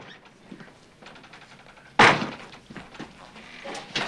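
A heavy door slams shut after being propped open with a chair, a single loud, sharp thud that stands out abruptly against quiet, faint background noise before and after.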